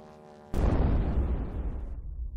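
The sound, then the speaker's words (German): A cartoon airplane catching fire and crashing in an angular, blue-and-white animated virtual-reality game: a sudden loud blast after a brief quieter tonal lead-in, then a long, deep rumbling decay. “Dann fängt Homer Simpsons Flugzeug Feuer und stürzt ab.”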